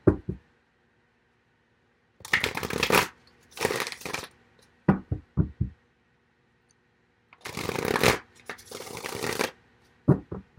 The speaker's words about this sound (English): Let's get some additional cards.